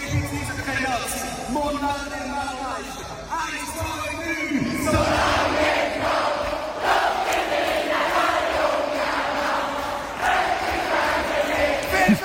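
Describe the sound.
A crowd of about 15,000 sings loudly together in the Hallenstadion arena. A single voice is heard at first, then the massed voices swell into a dense, sustained roar.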